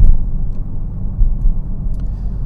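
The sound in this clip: A small blue sports car out for a drive on a sunny day, heard as a steady low engine rumble with gentle swells in loudness and no voices.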